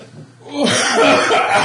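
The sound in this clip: Harsh coughing from someone choking on a drink at a tabletop game session: a loud, rough burst that erupts partway through after a quieter stretch and carries on to the end, with a bit of voice mixed in.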